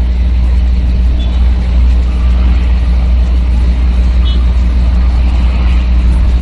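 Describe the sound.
Night-time road traffic picked up by a street camera's microphone in Angelópolis, a loud, steady low rumble and hum of vehicles with no distinct individual pass-bys standing out.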